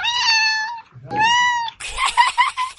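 A cat meows in two long, steady, high-pitched calls, each held for under a second with a short pause between, followed by rougher, noisier cat vocalizing.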